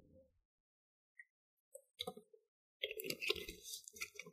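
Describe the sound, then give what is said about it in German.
Someone takes a quick sip of a drink. The sound is faint: a few small isolated clicks, then a short cluster of soft wet mouth and swallowing noises. “Ich muss einmal kurz einen Schluck trinken. Moment.”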